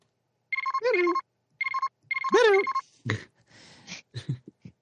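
A telephone ringtone sounds, faint and electronic, in three warbling tonal bursts with sweeping pitch, followed by a few short, noisy clatters.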